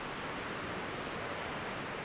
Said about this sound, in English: the waves hissing and crashing elegantly on the parallel shore.